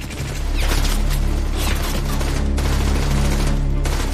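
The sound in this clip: Machine-gun fire from an enemy gun nest shooting at Canadian defenders in wartime: a loud, continuous, dense rattle of rapid shots over a heavy low rumble that lasts throughout.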